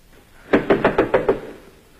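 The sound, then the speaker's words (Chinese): Knocking on a door: six evenly spaced, firm raps in quick succession, clear and alone with no voices. “这时传来敲门声，是雅各的妻子艾米莉夏”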